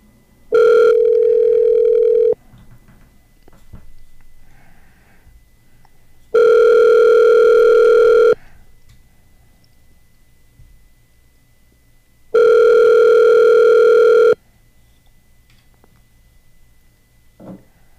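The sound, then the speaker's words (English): Ringback tone on an outgoing phone call to an unanswered line: three long, steady, even-pitched rings of about two seconds each, separated by quiet pauses of roughly four seconds. “I am placing you on a brief hold while I call Terry McLowry. Oh Terry's not answering.”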